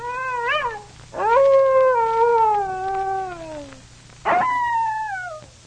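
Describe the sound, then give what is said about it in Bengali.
Three loud wolf howls follow one another: a short first cry, then a long drawn-out howl that slowly falls in pitch. A third howl starts sharply and slides downward. “একবার একটি নেকড়ে পালের উপর ঝাঁপিয়ে পড়ে”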